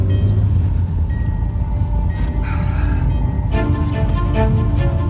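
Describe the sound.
A train departs Metz station with a loud, steady rumble and a faint tonal whine running underneath, continuous throughout without any voices.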